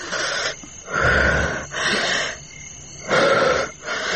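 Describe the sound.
Rasping, wheezing breaths from a person recovering after mouth-to-mouth resuscitation, with a doctor present. Several loud gasps alternate with quieter pauses in a steady, labored rhythm.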